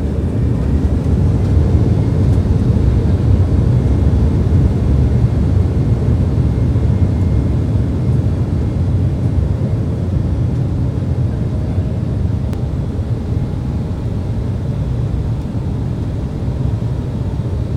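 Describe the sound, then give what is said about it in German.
An airplane taking off from the runway gives a loud, steady, low rumbling roar that holds evenly for the whole stretch, with no voices. “Wir stehen jetzt auf der Startbahn und der Pilot startet jetzt.”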